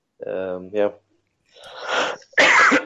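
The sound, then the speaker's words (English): Harsh, breathy coughs come as two noisy bursts, the second louder and sharper, after a short voiced sound from the same person. “Sorry for the cough.”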